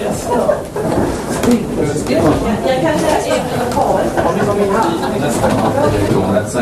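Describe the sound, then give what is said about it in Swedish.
A hatch is opened with a dull scraping, sliding rumble under steady talk from several people. “Jag kan öppna luckan.”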